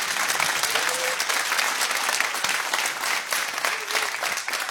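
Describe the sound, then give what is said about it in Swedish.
Audience applause after a stage performance, a dense, steady wash of many hands clapping at even loudness from start to finish. “En applåd det. Från scenen ute i publiken.”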